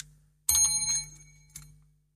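A bell rings twice: a bright, loud first strike and a softer second one about a second later. Each ring leaves a shimmering metallic tone that fades away, with no talk.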